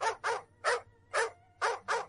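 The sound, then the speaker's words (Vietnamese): Guard dogs barking furiously: six sharp, mid-pitched barks in an uneven rhythm, heard alone over a low, steady hum. “Hai con chó giữ sủa điên cuồng lao tới phía tường.”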